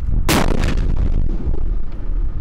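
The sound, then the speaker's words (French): Gunfire from a live-fire exercise by the 3rd squadron of the French Foreign Legion's 1st Foreign Cavalry Regiment, at combined-arms tactical subgroup level in Exercise Wakri 2016: one sharp, loud blast followed by a long, rolling rumble. “le 3e escadron du 1er régiment étranger de cavalerie a effectué un exercice de tir de niveau sous-groupement tactique interarmes”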